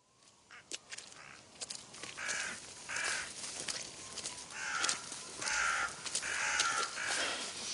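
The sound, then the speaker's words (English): Many birds caw harshly over a ploughed field, their calls overlapping in a faint, continuous ruckus that thickens toward the end. “Oh, blasted birds. Unholy ruckus. It's the ploughing, sir. They turn up all the worms, see?”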